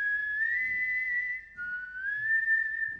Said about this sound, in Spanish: Tengo un problema, estoy perdiendo el silbido.